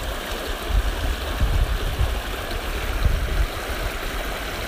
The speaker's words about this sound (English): how the rocks are beating off of the water, and the water so gracefully goes around it.